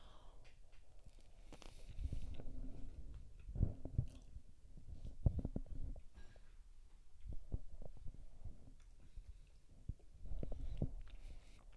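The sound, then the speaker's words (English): Someone eats spoonfuls of Talenti caramel truffle gelato, making many soft, wet chewing and biting sounds in irregular bursts with short pauses between them. No one talks. “So here we go. One bite, several bites. Talenti. What is this again? truffle or the caramel truffle.”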